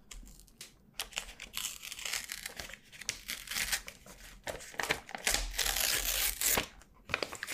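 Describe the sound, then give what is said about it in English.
Paper is slowly torn out of a pad in a library, giving close, crinkly rasping and crumpling sounds that run for several seconds in uneven bursts and grow louder and brighter toward the end. “Let me just tear this out for you, okay?”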